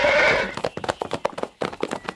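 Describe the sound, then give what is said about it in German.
Horses galloping in a race along a straight path, their hoofbeats landing as many quick, uneven thuds that follow a brief burst of noise at the start. No voices are heard over the hooves. “Galopp, Sabrina.”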